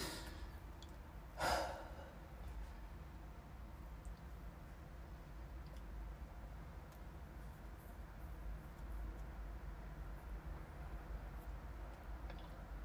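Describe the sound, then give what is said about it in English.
A single deep breath taken as a slow, airy sigh near the start, followed by a long stretch of faint, quiet hiss. “So close your eyes. Take 3 deep breaths.”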